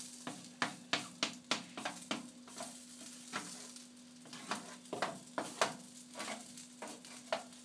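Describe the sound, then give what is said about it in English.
Sizzling and crackling on a switched-off hot stove with nothing on it: many sharp, irregular faint pops over a steady low hum. “There is something still sizzling. There shouldn't be anything sizzling because the thing's off and there's nothing on it.”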